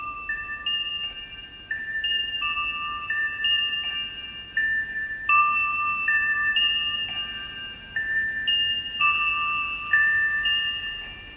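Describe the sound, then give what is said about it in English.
A pocket watch chimes a slow melody in high, tinkling, music-box-like notes. Short phrases repeat over and over at a fairly even, moderate level with no voices. “Later, it will be revealed as the melody of a pocket watch that Indio carries with him everywhere, which sounds like this.”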